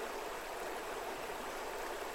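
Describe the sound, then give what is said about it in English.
Water running in a stream, a steady, even rushing hiss that continues without a break, soft and unchanging with no voices. “There's just a quality to the water running that I didn't notice till I took these off.”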